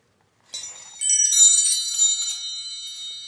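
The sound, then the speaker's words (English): Wind chimes ringing in a breeze: a few light metallic tinkles, then a dense shimmering cluster of high, bright tones that rings on and slowly thins out, with no voices. “a set of wind chimes. Look, Father, here is music in the wind. Just then, a playful breeze blew through the chimes”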